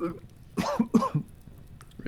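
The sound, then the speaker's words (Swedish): A small sour burp from acid reflux comes as a few short, throaty bursts in quick succession, low and muffled, with quiet surroundings before and after. “Ja, det fick bara en liten sur uppstötning här.”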